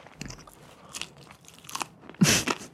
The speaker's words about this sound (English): Let's try the fries.